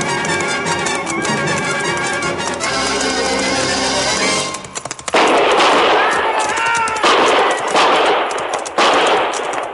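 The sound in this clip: A volley of gunfire in a canyon, with dense bursts of rapid, loud, rattling shots filling the second half after a quieter, tonal opening.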